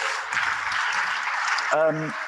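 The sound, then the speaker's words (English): Audience applause for a singer who leads worship, a dense and even wash of clapping that holds steady throughout, with a voice speaking just before the end. “Let's give Rebecca a round of applause.”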